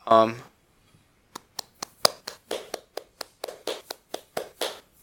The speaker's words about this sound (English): Go, okay, clap, 100 BPM. It'll be like, or clap 300 BPM, and it would be like,